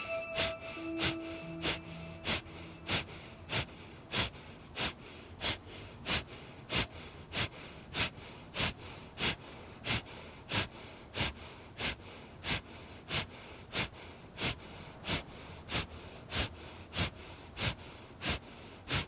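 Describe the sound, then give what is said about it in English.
Kapalabhati breathing, rapid forceful exhalations through the nose during a yoga session: a long series of short, sharp puffs at a steady, even pace, each one distinct and clearly separated. “And let's do the Kapalabhati breath again.”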